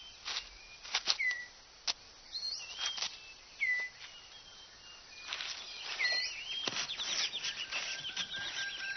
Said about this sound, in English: That leaves the male six-plumed bird of paradise with time to concentrate on other matters, like tidying up his display area.